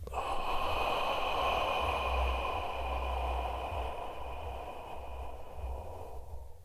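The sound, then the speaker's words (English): A slow, deep breath during a guided breathing exercise: a steady, airy rush lasting several seconds that gradually softens toward the end, over a faint low rumble and a soft sustained tone. “One more, in for four. Hold for two. And out for six.”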